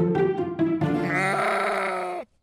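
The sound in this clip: A goat kept on a suburban homestead bleats once, loud and nasal, for about two seconds. It starts in short broken pulses, then holds a strained, wavering tone before cutting off abruptly.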